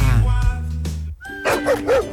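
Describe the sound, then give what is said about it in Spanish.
Dogs at a canine care and recovery center bark loudly, giving a few sharp barks and yelps and then whining calls that rise and fall near the end. “Esos ladridos son los perritos de la Corporación Mirada Animal Chile”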